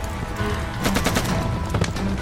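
Gunfire in a war-film battle scene. A few sharp bursts of shots stand out over continuous rumbling noise.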